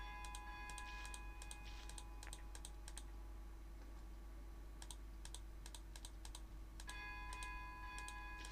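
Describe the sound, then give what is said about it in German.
Rapid computer mouse clicking: faint bursts of quick, crisp clicks in three separate runs over a low, steady electrical hum, with no voices. “Ich klicke einfach viel. Ich klicke einfach ganz viel.”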